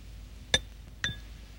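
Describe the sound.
Two bright clinks of a spoon against a soup bowl at a dinner table. Each is a sharp, ringing tap, about half a second apart, with no talk.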